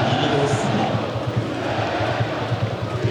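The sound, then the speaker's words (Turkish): A football stadium crowd roars as Trabzonspor score their sixth goal in stoppage time against İstanbulspor, a dense, continuous wall of cheering and shouting that holds at a loud, even level throughout. “Tribünler bu sevinci yaşıyor. 90+2'de geldi gol.”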